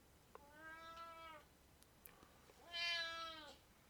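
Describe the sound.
Cat complaining in the background with two faint, drawn-out meows, the second somewhat louder and higher than the first, heard alone with no talk.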